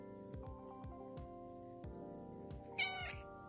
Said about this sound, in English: that's my cat, Johnson